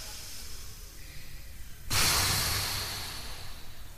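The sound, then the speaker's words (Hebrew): An audience at a live show blows hard to put out candles, a sudden loud, breathy whoosh of many breaths at once that slowly fades, after a quieter hissy stretch. “המון המון אוויר. נשיפה גדולה. אוח, חיבינו את הנרות.”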